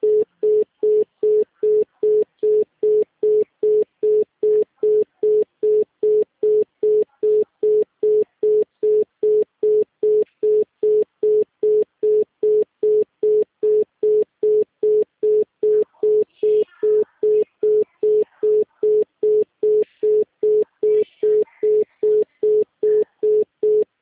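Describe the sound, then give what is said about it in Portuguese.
Telephone busy tone on a Claro phone line: a steady run of many short, identical mid-pitched beeps, about two per second, evenly spaced and moderately loud for the whole stretch, with no voices. “Por favor, aguarde. Todas as linhas estão ocupadas no momento. Por favor, tente mais tarde.”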